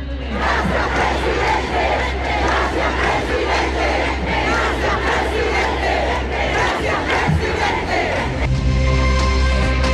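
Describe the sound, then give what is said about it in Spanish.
Supporters chant for Gabriel Boric during his speech, a dense crowd roaring rhythmic chants at a constant high loudness until the texture shifts near the end. “Claro, un discurso, como lo decíamos, que duró casi 20 minutos y que tuvo acompañado de múltiples cánticos a favor de Gabriel Boric por parte de sus adherentes. Escuchemos parte del ambiente de ese momento.”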